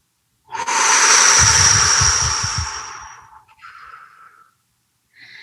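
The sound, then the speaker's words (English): Deep breathing in and out during a guided relaxation exercise: one long, loud, airy breath, then a quieter, shorter one, and another breath just beginning at the end. “So let's breathe together, deep in, hold it, hold it, hold it.”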